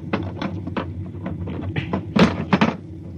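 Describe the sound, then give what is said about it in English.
A floor panel in a bulkhead being pried up, a series of hollow thunks and knocks with a few sharper clunks near the end. “Under the floor panel. You can pry it up.”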